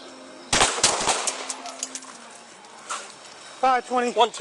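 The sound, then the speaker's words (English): Three sharp gunshots crack in quick succession during a police encounter with a man carrying a shotgun in West Toledo, followed after a short lull by a voice speaking. “Shots fired.”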